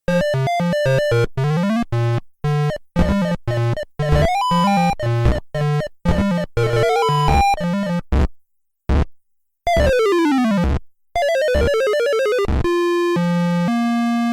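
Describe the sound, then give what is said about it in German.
Commodore VC20 Donkey Kong game audio, with bright buzzy electronic melody notes in quick staccato runs mixed with sound effects, including a long descending sweep and rising tones, broken by brief silent gaps. “Zuerst Donkey Kong. Das traut sich tatsächlich, Melodien mit Soundeffekten zu kombinieren. Das machen nur ganz wenige VC20-Spiele. Meistens hört man nur Geräusche. Und das klingt so.”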